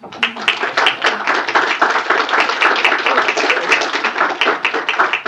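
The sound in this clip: Hearty clapping from an audience welcoming a guest speaker; many individual hand claps stand out as crisp, rapid strikes in a lively, uneven rhythm that stays loud across the whole stretch.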